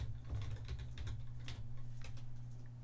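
Typing on a computer keyboard: a fast, irregular run of soft clicks over a steady low hum, faint throughout.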